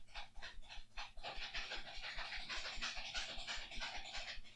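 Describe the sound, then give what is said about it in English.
A dog pants rapidly and continuously through the whole stretch, loud and breathy, over a steady run of low, rhythmic thumps as it knocks against the floor. No voices. “What in the goddamn hell is that? That was my dog. Oh, he's still going.”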